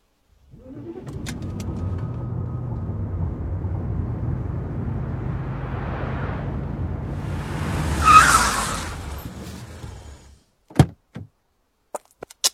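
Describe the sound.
A car driving off: a steady engine hum builds over several seconds, peaks in a brief squeal-like surge, then fades out, followed by a few sharp clicks.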